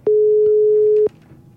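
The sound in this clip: A telephone ringback tone while placing a call: one steady, loud single-pitched beep lasting about a second, opening and closing with a click, then a faint hiss from the line.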